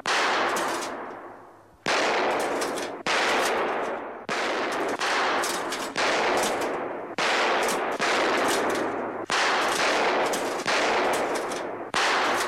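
Gunshots crack at a shooting gallery as targets are knocked down. There are many loud, sharp reports in a rapid, irregular series, each followed by a long decaying tail.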